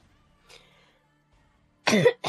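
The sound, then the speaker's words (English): A person coughing in a dusty place in a video game: one loud, harsh cough burst near the end, with a fainter, short throaty sound earlier over quiet background. “Cough, apparently. It's quite dusty. Yeah, a bit dusty in it.”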